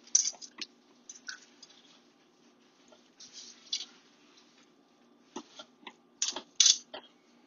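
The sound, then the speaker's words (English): Hands kneading butter into wet, sticky brioche dough make soft squelching, creaking sounds. They come in many irregular bursts of varying strength, with quiet gaps between, and no voices are heard. “Just going to kind of use your hands to work in that butter. Kind of help, kind of help it to form a little bit.”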